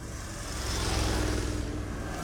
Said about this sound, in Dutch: Er komen wat auto's aan. Ja. Motoren.